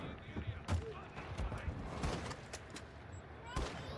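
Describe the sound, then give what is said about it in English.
A voice imitates a sniper rifle going off with a few gritty, noisy bursts and clicks. They sound faint over steady background noise. “Give me a sound of a sniper rifle going off.”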